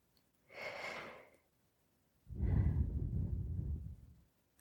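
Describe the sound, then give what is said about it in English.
Slow, deep breathing during a guided relaxation exercise: two soft breath sounds, a quieter airy one followed after a pause by a longer, louder, fuller one, with near-silence around them. “let's take three deep breaths in and out together.”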